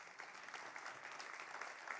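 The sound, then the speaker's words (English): A church audience claps together, a faint, steady wash of dense applause that holds evenly throughout without pause. “that's a great clap. I love when the church claps.”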